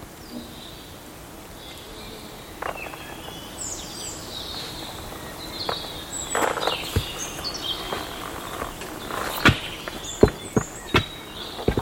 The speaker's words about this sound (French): Et les oreilles attentives captent les gazouillis des oiseaux.